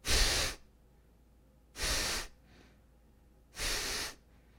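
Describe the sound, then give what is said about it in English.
Deep, drawn-out breaths from pranayama breathing practice, three loud, airy, hissing breaths separated by quiet pauses. “Or instead of doing really quick, I'm going to drag it out a little bit, do longer breaths.”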